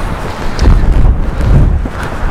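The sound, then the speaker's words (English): Gusty wind buffets the microphone during an outdoor walk toward some rocks, a steady low roar that swells in loud surges throughout, with no voices. “I'm just very conscious that this wind is very uncomfortable.”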